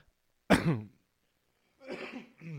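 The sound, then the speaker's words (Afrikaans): Throat clearing in a few rough, raspy bursts: a sharp, loud one followed after a pause by a longer, broken one, with no talk over them. “Verskoon my, ek het nou hier 'n ding in my keel.”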